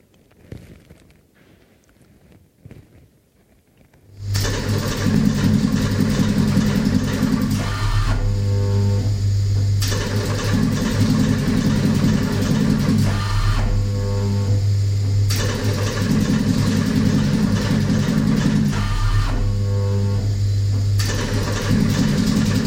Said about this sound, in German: Für sie erfand man Punziermaschinen. Zeile für Zeile wird der Text in Zinkmetall geprägt. Das hört sich etwa so an.